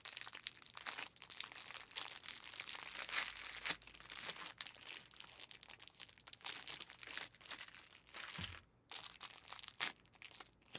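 Soft crinkling and rustling of a fish sausage's plastic wrapper being opened: a continuous run of crackly film noise with several sharper crunches and no voices.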